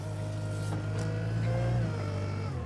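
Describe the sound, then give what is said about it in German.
A wheel loader's engine drones steadily while it drives on a farm among animals, a low, continuous hum with no voices. “muss mit dem Radlader zuarbeiten. Den genau dorthin zu lenken, wo er hin soll, ist am Anfang gar nicht so einfach.”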